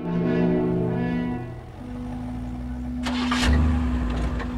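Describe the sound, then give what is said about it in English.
A car starting and driving off: a steady humming engine tone that dips briefly, then builds into a louder rev with a rushing burst near the end as the car pulls away. “She drives off.”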